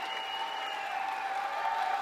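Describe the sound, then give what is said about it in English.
Concert crowd cheering and applauding at the 930 Club after a Sonic Youth set, calling the band back to the stage for an encore; a dense, steady roar of clapping and shouting with a faint sustained tone running through it. “1,000 people here at the 930 Club. Cheering them back to the stage”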